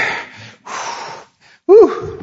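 Sharp, hissing intakes of breath drawn in by a preacher during a sermon: two long sucking inhales, then a short, loud, strained voiced gasp.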